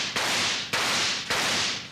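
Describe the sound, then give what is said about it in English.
Three sharp gunshots fired to shoot holes in a bucket, each a loud crack followed by a long hissing tail, spaced roughly half a second apart with no voices. “I'll just shoot some holes in it. That's less work.”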